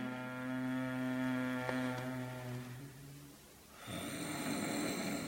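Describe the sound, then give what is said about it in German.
Slow, snoring-style inhale made as part of a guided breathing exercise: a steady, buzzing, throaty drone holds for about three seconds, then gives way to a breathy, noisy rush of air. “Und einatmen langsam und schnarchend nach oben.”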